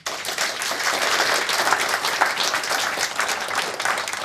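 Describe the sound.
Applause from an audience welcoming a panel of writers back at a book talk, a dense, steady burst of clapping at even loudness throughout, with no voices over it.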